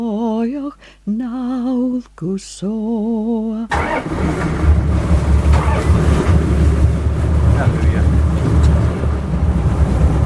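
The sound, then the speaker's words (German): A fast, seaworthy motorboat, like a small sea-rescue cruiser, running at sea off a remote Scottish archipelago. After a few seconds of a voice, a steady broad engine roar mixes with rushing wind and water and continues to the end. “Unser Motorboot ähnelt einem kleinen Seenotrettungskreuzer. Seetüchtig, schnell, voll modernster Technik.”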